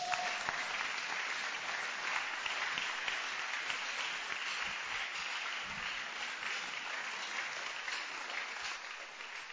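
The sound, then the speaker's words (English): A church audience claps its hands during a worship service, a continuous, even patter of many hands that stays steady and fairly soft for nearly ten seconds. “Stand to your feet. Let's go home. Clap your hands for the Lord.”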